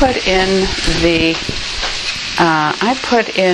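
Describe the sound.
Bell peppers fry in a pan with a loud, constant sizzle and crackle that runs throughout. A voice is heard at intervals over the frying.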